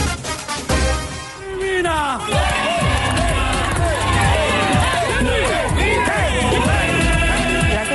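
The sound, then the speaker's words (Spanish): Stadium crowd at El Campín cheering as the Colombia national team players walk onto the field: a loud, sustained roar with many rising and falling whoops and shouts. “Los jugadores ya están en el campo de juego, recibiendo el cariño del público.”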